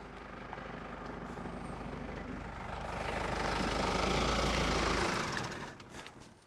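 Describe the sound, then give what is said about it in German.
A vehicle engine drones in the background, a steady low rumble that swells louder over a few seconds and then drops away, with no talk. “Ihr hört im Hintergrund, kommt das Fahrzeug schon?”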